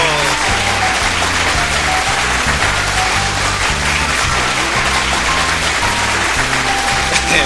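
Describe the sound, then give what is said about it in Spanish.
Applause from a studio audience: dense, steady clapping holds at an even, loud level throughout, with no voices rising above it. “Un aplauso para todos.”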